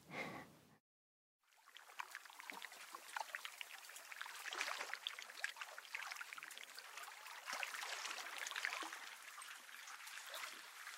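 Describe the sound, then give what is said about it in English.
Water around an iceberg in Antarctica gives off a faint, continuous fizzing and trickling crackle with scattered tiny pops, after a brief silence near the start. “So Yoko is one of the icebergs I guess recorded the sounds of, but also photographed when I was in Antarctica.”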